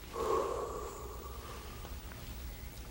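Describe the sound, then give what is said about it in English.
A storyteller imitates a breath blown out: one soft, breathy exhale lasting about half a second, then fading into faint hiss. “And the Father said, I will breathe into him, and then he shall rise. And so the Father went,”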